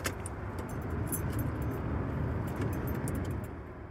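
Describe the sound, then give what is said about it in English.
Keys jangle in quick metallic clinks as a van is started after a roadside repair, over a steady low motor rumble. “I'm going to start the van for the first time since pulling over.”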